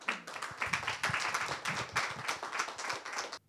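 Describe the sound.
An audience at a church conference applauding to welcome a pastor, steady rapid clapping from many hands that stops abruptly just before the end.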